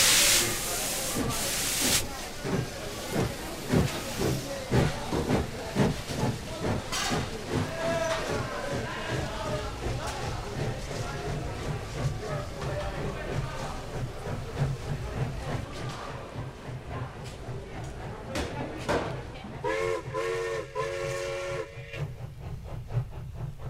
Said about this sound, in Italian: Al primo binario, Maria, parte il diretto per Maria. Milano.